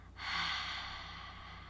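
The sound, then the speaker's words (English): A forceful exhale with the tongue out during a breathing exercise, a sudden loud breathy rush that tapers off slowly. “This time, exhale with your tongue out.”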